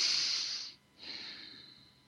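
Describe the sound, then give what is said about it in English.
Deep breaths taken during a guided relaxation: a long, soft, airy breath, a brief pause, then another slower breath that fades gently. The breathing is quiet and hissy, and no one speaks. “Close your eyes and take a couple of deep breaths.”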